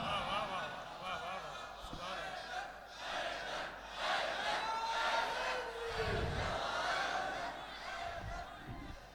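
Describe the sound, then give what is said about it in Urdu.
A crowd chants slogans during a speech at a religious gathering. Many voices blend into a loud, continuous roar with louder surges. “کچھ آپ نعرہ لگا رہے تھے چھوٹا موٹا, کچھ آواز آ رہی تھی”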